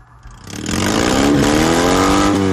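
A Fiat 126p with a 650 cc, 24-horsepower engine and modified exhaust revs hard at an owners' rally, its loud buzzing note climbing steadily in pitch after a quiet start and holding high to the end.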